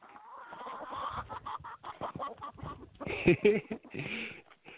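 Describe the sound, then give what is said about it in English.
Chickens at a house cluck and squawk in a busy run of short, uneven calls that grow louder and sharper toward the end. “So that is one of the things that the new house that I'm staying at has chickens, and they just showed up.”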